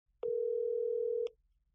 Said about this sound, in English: when I got confirmation, well, I had to immediately get her on the phone.